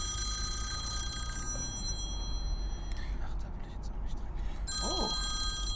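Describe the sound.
A telephone rings as a call comes back, with bright, steady high ringing tones that drop out briefly midway and then resume over a constant low background rumble.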